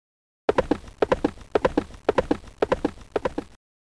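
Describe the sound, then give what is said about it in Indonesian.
Children imitate horse hoofbeats with their mouths: six rhythmic galloping bursts of quick, hollow clicks at an even pace, each burst a tight cluster of clip-clop taps, with brief silence before and after. “Kalian bisa menirukan suara langkah kaki kuda.”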